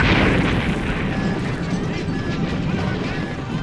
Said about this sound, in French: Un minuscule flash de lumière bleue pulsa de l'immense croiseur ennemi et un local adjacent explosa.